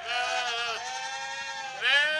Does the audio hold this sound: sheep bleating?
yes